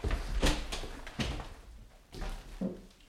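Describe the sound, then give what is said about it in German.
A door being opened, heard as a few soft knocks and thuds of handling over a low, steady rumble, quiet overall and without talk. “Na los, mach die Tür auf. Ich stelle mich hier auf die Seite.”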